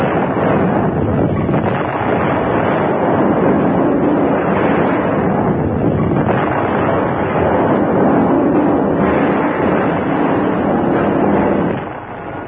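A loud explosion set off by a lit fuse that destroys New York, heard as a dense, roaring rumble that holds steady for about twelve seconds and then drops away at the end.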